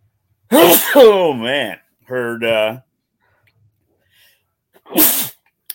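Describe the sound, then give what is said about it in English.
A big sneeze: drawn-out, pitched wind-up breaths lead, after a pause, to one sharp, loud explosive burst. “big sneeze.”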